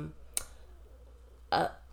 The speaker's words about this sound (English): now my stomach growling.